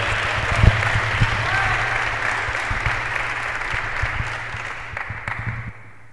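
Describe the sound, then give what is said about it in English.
Applause at Virginia Highland Church in Atlanta welcoming a pastor at an International Day Against Homophobia event, a dense, steady wash of clapping that fades away at the end. “Pastor Chris Glosser, is going to come in and do our prayer. Let's give him a hand, you all.”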